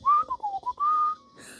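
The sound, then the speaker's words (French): Michael Myers whistling as he takes a walk: a clear, melodic tune of several sustained and wavering notes, ending with a brief faint hiss. “là c'est Michael Myers qui prend une balade. Puis, euh, Ils ont coupé le volume pour le sifflage, je pense, parce que d'après moi, il sifflait tout carrément.”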